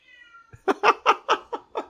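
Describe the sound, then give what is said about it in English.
A cat going crazy lets out six loud, rapid meows in quick succession after a faint high whine. “I have a cat going crazy.”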